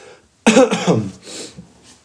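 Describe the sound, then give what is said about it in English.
Raspy coughing from someone getting over an illness: a sudden loud burst followed by a few rougher, fainter coughs that trail off, with no speech. “I apologize for the raspy voice and the coughing”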